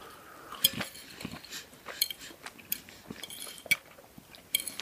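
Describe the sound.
Cutlery clinks on plates as people eat onions, with many light, irregular metallic taps and scrapes that stay fairly faint throughout.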